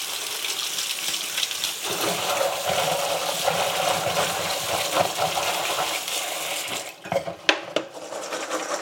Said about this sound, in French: j'ai terminé d'écosser euh, tous mes petits pois et je vais les rincer vite fait sous l'eau froide.